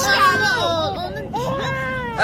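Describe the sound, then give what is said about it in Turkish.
A baby crying after waking, with wavering, whimpering wails that rise and fall in pitch and a brief pause midway. “Ağlama canım, ağlama. Sen ne tez uyandın.”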